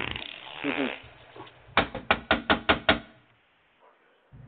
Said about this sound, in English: Let me knock on his door.